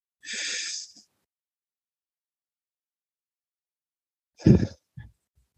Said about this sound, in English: So let's take that with three deep breaths and be on our way again to land this morning.